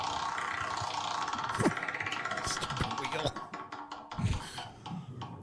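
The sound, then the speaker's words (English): A prize wheel spinning during a game segment, giving off a rattling run of many rapid clicks and clatters that slow and thin out toward the end, heard under voices. “Let's spin the wheel of Creed.”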